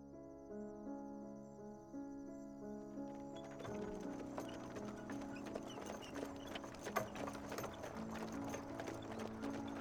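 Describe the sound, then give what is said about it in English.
Clip-clop of a horse pulling a wagon with a coffin along a road. After a few seconds of soft, sustained music, steady hoof beats and a faint rattle begin, quiet throughout, with the music lingering underneath. “When she walked out onto the road, she saw John, the one-armed gravedigger, passing by on his wagon with a coffin on it.”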